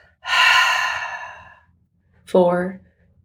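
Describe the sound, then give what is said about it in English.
A long, breathy exhale after holding the breath during a paced breathing exercise, a strong rush that slowly fades over about a second, followed after a pause by a short voiced breath sound. “Take a breath in through your nose. Hold it for 4, 3, 2, exhale.”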